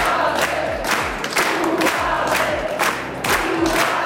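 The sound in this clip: Loud crowd cheering and applause from a concert audience responding to a band performing with its members' sons and daughters in St. Michael im Lungau; a dense, sustained roar of many voices with a few swells.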